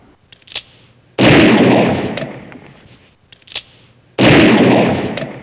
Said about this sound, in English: Well, there was a Vice President Biden, Shotgun Joe's two warning shots. Did you hear those?